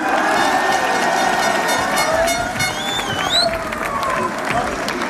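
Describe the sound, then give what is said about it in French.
Stadium crowd chanting the name Mamadou for player Mamadou Sangaré, a loud mass of voices mixed with cheering and clapping, with a few rising whistle sweeps cutting through partway along. “à entendre les Mamadou qui sont scandés par le public, je vous confirme”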